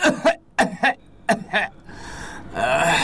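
Several sharp, harsh coughs come in quick bursts over the first second and a half, then quieter breathy noise continues.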